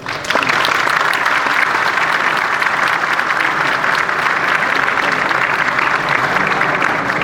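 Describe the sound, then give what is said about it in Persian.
An audience gives loud, sustained applause in honour of a disabled war veteran wounded by shrapnel at Abadan, with dense, unbroken clapping from start to finish. “به افتخارشان، به افتخار پایی که داده، دستی که داده و تنی که آسیب خورده، همه جانبازان و این جانباز عزیز به افتخارش یک دست قشنگی بزنید.”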